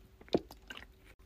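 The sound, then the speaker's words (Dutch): A single quick, quiet sip of water, a brief wet slurp with a faint swallow-like squish, in an otherwise hushed moment. “Ik ga even een slokje water nemen.”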